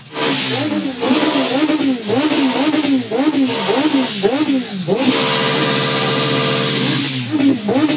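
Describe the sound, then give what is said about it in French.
A motorcycle engine revving hard with each throttle blip at over 100 decibels, at a nighttime biker gathering facing the Eiffel Tower: loud, rapid rising-and-falling revs repeat many times, then a sustained high rev, then more blips. “Plus de 100 décibels à chaque coup d'accélérateur.”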